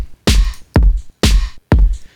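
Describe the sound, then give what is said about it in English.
A synthesizer pulses against a kick drum through sidechain ducking in an electronic remix: four loud, evenly spaced beats, each a punchy low thump with a bright synth swell that cuts off sharply before the next hit. “the synthesizer will be turned down, which creates this sort of pulsing effect, audio effect.”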